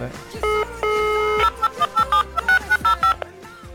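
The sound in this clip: Telephone keypad tones as a number is dialed to call a bar: two longer steady beeps, then a quick run of many short beeps, over faint background noise.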